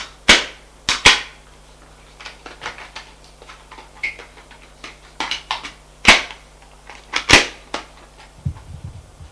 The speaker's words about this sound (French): Charge la carabine de 2 balles.